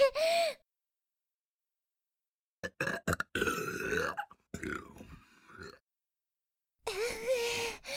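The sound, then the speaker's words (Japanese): Loud, deep burps, a few separate belches with breathy gasping sounds between them and no talk. “またゲップ出た。”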